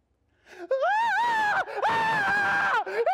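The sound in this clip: A woman's voice screams, apparently imitating a screaming fan at a pop concert. Two long, high, wailing cries with a brief break between them are followed by a short final cry, loud and alone.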